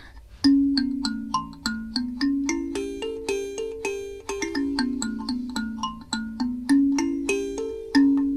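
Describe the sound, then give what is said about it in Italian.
A sanza thumb piano, built from a coconut with metal tines, is plucked in a steady melodic run of many bright ringing notes. Each note decays with a metallic shimmer, and the tune shifts up and down in pitch. “Allora, questa invece è una sanza che sentite adesso.”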